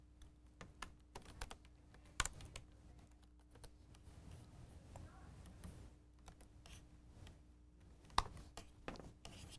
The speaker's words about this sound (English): I'm just going to write hello to the console.